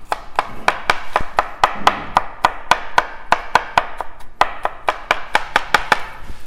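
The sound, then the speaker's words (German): A cleaver chops fresh coriander sprigs into small pieces in rapid, steady, crisp strokes. Many sharp, evenly spaced chops are heard with no talk. “wenn ihr grün schneidet, wie von mir aus jetzt den Koriander oder Petersilie, und dann sollt ihr das in kleine Stücke schneiden, in kleine Streifen.”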